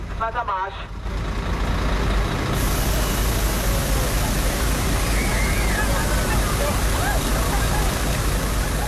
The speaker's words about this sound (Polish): W Berlinie słychać odgłos policyjnej armatki wodnej, która rozpyla wodę na tłumy szukające ulgi w nieznośnym upale.